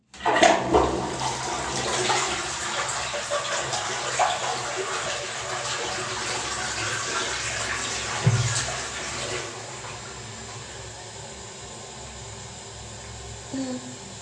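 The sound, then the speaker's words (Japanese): Toilet flush: a loud rushing, hissing surge of water that holds steady for about nine seconds, then drops to a quieter, trickling refill. “よし、流します。”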